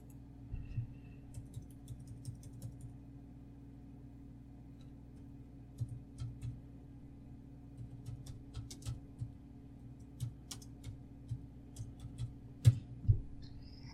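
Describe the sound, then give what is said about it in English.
Light typing on a computer keyboard while entering a search, many small irregular clicks in loose bursts, faint throughout with a couple of sharper taps near the end. “Type in what you just said and then put ground to space.”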